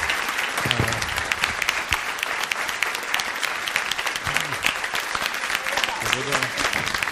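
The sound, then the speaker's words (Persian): Audience applause at a live show: dense, steady clapping that stays loud for the whole stretch, with faint voices mixed in. “تشویقش کنید”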